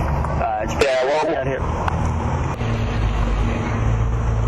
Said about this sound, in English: I'm sitting outside. Yeah, we got buses and cars driving by constantly.